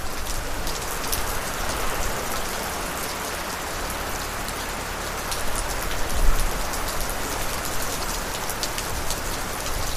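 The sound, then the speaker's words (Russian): Steady rain falling outdoors on a street, a dense, continuous hiss of drops that swells slightly louder for a moment near the middle, with no voices. “Едва сыщики вышли из фрейлинского корпуса на улицу, как снова зарядил промозглый нудный дождь.”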